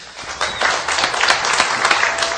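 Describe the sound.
An audience at a Christian community gathering applauds to welcome a speaker to the front, with dense clapping that swells quickly and stays loud and sustained throughout.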